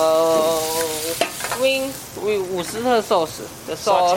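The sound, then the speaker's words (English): Leeks sizzle as they sauté in oil in a pan, a steady frying hiss that runs under people talking. “Saute. What is saute? Saute is the way you're cooking the vegetables.”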